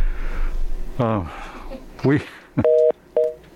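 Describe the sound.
Telephone busy signal on a radio call-in line after the caller disconnects: two short, steady dual-tone beeps that follow a stretch of a man talking.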